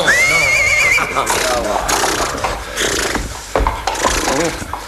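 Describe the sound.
A stately horse gives a loud, high, quavering whinny lasting about a second. Snorting, shuffling, scraping and wooden knocks follow.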